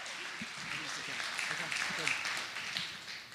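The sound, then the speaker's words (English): An audience applauds to welcome speakers at a Vision Night event. Dense, steady clapping continues throughout and tapers off at the end. “Okay, so put your hands together, welcome them, and they're going to share for a little bit.”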